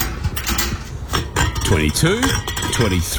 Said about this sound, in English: Mate, what are you doing? Stock take before a barbecue? Ha, nah, collecting cans. This stash will get me close to $100. $100? For old stubbies?